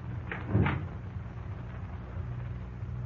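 An unlocked door being opened gives a single brief, soft clunk near the start, over a faint low background hum.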